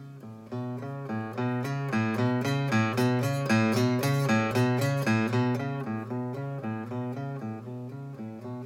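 An electric guitar picks quick, even repeated notes on the fretted A string. The picking grows steadily louder toward the middle and then eases back down in volume, heard alone.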